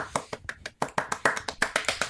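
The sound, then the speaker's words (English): Many quick finger snaps, crisp and clicky, coming in a fast, slightly uneven rhythm with a brief pause near the start. “Why, thank you. I'm snapping.”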